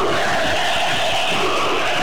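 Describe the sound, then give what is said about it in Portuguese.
Football fans chanting in a stadium during a Brazil versus New Zealand match, a loud, unbroken roar of many voices with a sustained, droning quality. “E a torcida continua no Utererê.”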